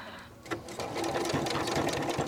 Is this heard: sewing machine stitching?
yes